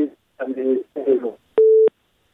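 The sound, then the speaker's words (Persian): A telephone busy tone sounds after a listener's call into a radio phone-in drops: talk comes first, then a single short, steady mid-pitched beep, clean and alone. “خب تماس شنونده ما قطع شد، تماس دیگر را میگیریم”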